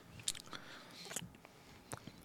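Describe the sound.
Lip smacking into a microphone while tasting beer: a few quiet, wet smacks and soft clicks spread over about two seconds, with no talk.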